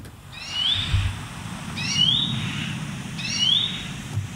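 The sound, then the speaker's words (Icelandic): An unidentified bird gives three evenly spaced, high, rising whistled calls over a low background rumble. “En þetta er Fugl dagsins hjá okkur í dag.”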